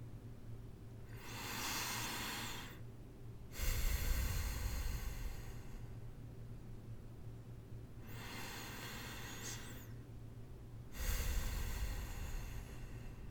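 Deep, slow breathing during a relaxing massage: two full cycles, each a soft airy inhale followed by a louder, fuller breathy exhale, with short pauses between, over a faint steady hum.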